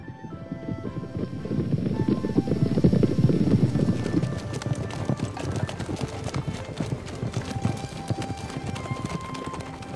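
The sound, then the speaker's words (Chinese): Steady clip-clopping hoofbeats from a horse pulling a large, extra-long luxury carriage in a comedy skit. The hooves keep a continuous, even trot rhythm through the whole stretch at a fairly loud level. “一番闹腾后，韦小宝一家八口登上这辆特大豪华加长限量版大马车，朝着罗太傅府邸策马扬鞭。”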